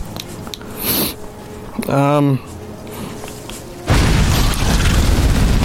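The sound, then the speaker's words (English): A video game enemy exploding in a wizard adventure game. A brief vocal sound comes first, then a loud rushing blast that holds steady to the end. “he just exploded. There's so many of them.”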